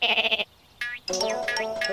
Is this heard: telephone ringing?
no